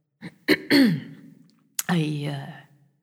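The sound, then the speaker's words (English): A man, a foreman, clearing his throat: a few short rough bursts, then a longer voiced rasp that trails off, followed by another throaty clear. Fairly quiet and alone. “the foreman cleared his throat and spoke.”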